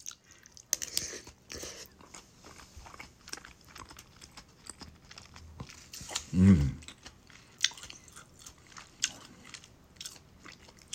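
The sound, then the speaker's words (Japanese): Crunchy fukujinzuke pickles being chewed: many sharp, irregular crunching bites, mostly faint, with one heavier, louder chew midway through. “あ、福神漬けうまい。これね、おいしいですよ。辛いんだけど、”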